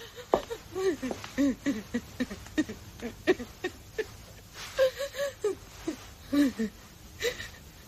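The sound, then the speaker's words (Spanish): A person cries in many short, uneven whimpering sobs broken by catching breaths and a few higher wavering moans. It is faint and irregular in rhythm. “¿Por qué llora? Lloro porque usted no llora.”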